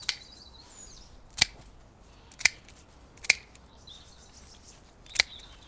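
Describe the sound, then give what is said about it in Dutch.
Pruning shears snip a butterfly bush as it is cut back hard. Four crisp, sharp clicks fall at uneven intervals, with faint bird chirps in between. “ik ga toch beginnen met de eerste knip. Zo, de vlinderstruik. Die gaat eens even helemaal kort gewikt worden.”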